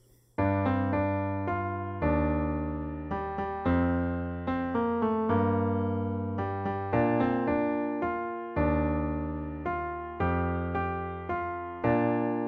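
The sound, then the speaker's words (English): A musical theme played in three-four time on a keyboard-like instrument, its chord sequence moving from a minor key toward the relative major, with struck chords and melody notes decaying in a lilting waltz rhythm, alone without voices. “The original version of the theme is actually in 3-4, as opposed to the 4-count version that we got in this episode. The original version sounds kind of like this.”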